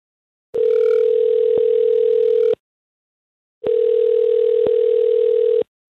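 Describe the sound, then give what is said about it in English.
Ringback tone of an outgoing telephone call: two long, steady electronic tones, each about two seconds, separated by a stretch of silence, loud and alone with no voices. “We're going to call this guy you went on a date with, Brock”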